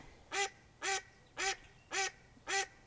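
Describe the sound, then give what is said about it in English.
A duck quacks five times in an even, steady rhythm. Each quack is loud, nasal and raspy and stands out clearly over faint background noise. “You got a duck. Duck just interrupting the podcast.”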